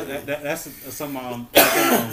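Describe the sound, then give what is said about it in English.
A man coughing, a heavy smoker who coughs often: throaty, voiced rasps at first, then one harsh, loud cough burst toward the end. “It coughs all the time. He does cough a lot.”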